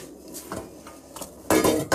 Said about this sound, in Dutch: intussen is mijn andere pot met mijn water en zout ook goed aan het koken. En ik zal daar nog zo'n lasagneblad inleggen.